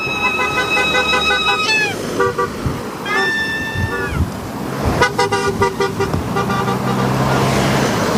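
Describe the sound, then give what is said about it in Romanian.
Car horns honk in overlapping sustained tones, some bending downward in pitch, as drivers celebrate the opening of a new motorway section with vuvuzelas and cheering. Loud, continuous traffic rumble runs underneath throughout. “Zeci de șoferi au marcat momentul deschiderii noului tronson de autostradă cu claxoane, vuvuzele și urale.”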